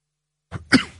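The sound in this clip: A person coughs from a tickle in the throat: a brief first burst followed at once by a louder, harsher second burst, heard alone after silence.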